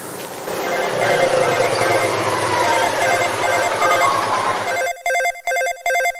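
A telephone rings with a steady, buzzy electronic trill. It then breaks into a few short, evenly spaced ring bursts separated by brief silences, loud and with no voices.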